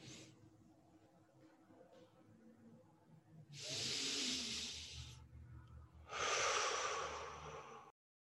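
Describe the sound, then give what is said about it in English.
Slow, deep breaths during a guided meditation: two long, airy rushes of breath separated by a short pause, each lasting over a second, alone over a faint low hum. “So just breathe 3 more breaths of gratitude in.”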